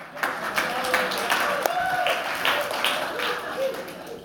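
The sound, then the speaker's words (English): Applause from a church service audience: steady, dense clapping that runs throughout at an even level, with a voice faintly audible over it. “It's funny because people in the first service clap too, and I'm like, thank you for the encouragement. This was literally made for three-year-olds. So the fact that you're applauding me, I don't know if I should be excited or offended”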